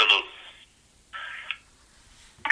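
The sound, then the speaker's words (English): A telephone line sounds after a caller hangs up during a radio call-in show, giving a repeating electronic tone: two steady beeps separated by silence, with a third beginning at the end. “The caller has hung up.”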